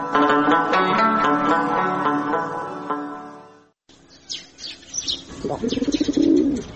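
A pigeon perched on a wall gives a throaty coo near the end. A few scattered chirps come just before it, and a sustained tonal passage fills the opening seconds.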